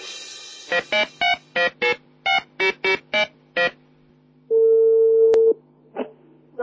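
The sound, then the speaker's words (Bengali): A telephone call is connected. A quick run of dialing beeps is followed by one long, steady ringing tone and the start of a second ring. “ওকে প্রিয় শ্রোতা, আমরা এই মুহূর্তে ঝুমুকে ফোনে connect করার চেষ্টা করছি”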